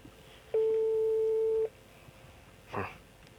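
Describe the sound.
A telephone ringback tone sounds while a caller waits for an answer: one steady, mid-pitched tone lasting about a second, then a short, faint noise against a quiet background.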